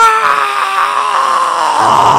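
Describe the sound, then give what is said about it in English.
A person imitates someone screaming in a quiet neighborhood street, voicing one loud, sustained 'aah' that holds for about two seconds at a fairly steady pitch before trailing off. “White Plains, and you just got outside, and you just screamed”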